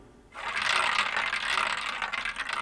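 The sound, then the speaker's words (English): A record player needle stuck in the final groove of a record makes a scratchy, rattling rasp that starts abruptly after a brief quiet moment and continues steadily. “the needle comes to the end of the record and gets stuck in that final groove”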